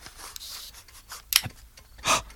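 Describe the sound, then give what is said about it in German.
A square is slid across a sliding-puzzle chessboard: faint scraping and rubbing, then a few short, sharp clicks. The sounds are quiet and sparse, with no talk. “Da hat es doch ganz deutlich im Inneren des Schachbretts geklickt, oder?”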